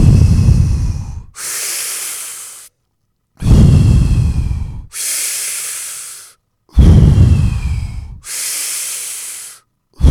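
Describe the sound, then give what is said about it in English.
Deep breathing during a breathing exercise: three full rounds of a long, airy inhale followed by a hissing exhale, each breath loud and drawn out with brief silent gaps between, and no talk. “So it's like, and then let it go. And inhale deep, let it go. Inhale deep, let it go.”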